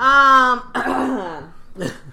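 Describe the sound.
A person clears their throat: a drawn-out voiced rasp, then a rougher gravelly stretch and one short, gruff burst at the end.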